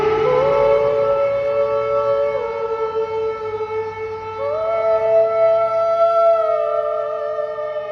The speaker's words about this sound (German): filmt ein Selfie und nimmt sich auf, wie sie ganz spontan mit den Sirenen singt, gleichzeitig aber auch gegen sie.